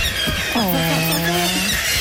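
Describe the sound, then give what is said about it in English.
A bird squawks as it is released from a small box with a pulled slat, giving one drawn-out, harmonic call of fairly steady pitch over constant background noise. “We pop them in the box and we pull the slat to release the bird to the outside world.”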